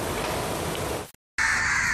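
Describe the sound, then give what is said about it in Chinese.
Crows cawing in a dense chorus as a large flock gathers in the port city of Aden, Yemen. A loud, continuous texture breaks off into a brief silence, and a steadier noise follows. “近期，也门南部港口城市亚丁乌鸦数量激增，遍布公园、屋顶与街边，严重扰乱市民日常的生活。”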